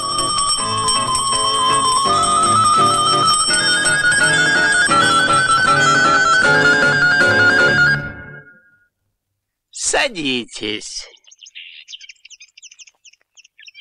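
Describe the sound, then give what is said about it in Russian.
A school bell rings to start a lesson on the first day of the school year: a loud, steady ringing of layered tones lasting about eight seconds, then stopping, followed by brief high chirping sounds. “Звонок!”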